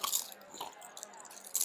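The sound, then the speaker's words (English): Food being chewed: soft, wet, crunchy mouth sounds with irregular bites and squelches, quiet throughout. “so excuse the chewing”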